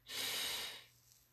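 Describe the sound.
A single deep inhale taken during a guided breathing exercise: one long, airy breath that swells quickly, holds steady for about half a second, then fades into quiet.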